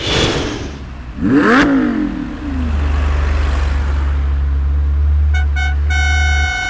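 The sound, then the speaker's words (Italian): A Ferrari sports car's engine gives one sharp rev that climbs and falls in pitch, then settles into a loud, steady low drone, with a series of high electronic beeps near the end. “Ma dove l'hai rubata sta bestia di Ferrari?”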